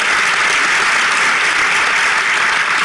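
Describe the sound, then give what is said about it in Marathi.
Loud audience applause at a Goa government award ceremony honouring an artist. Thick, continuous clapping holds at an even level throughout. “पुनश्च एकदा ताळ्या वाजवून आपण सगळ्यांनी तुमचं अभिनंदन”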